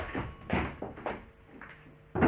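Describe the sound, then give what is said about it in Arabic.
A door is opened: a few soft wooden clunks and thuds, fairly faint and unevenly spaced, with a sharper knock at the end. “يا ترى مين؟ افتح الباب يا فرحات.”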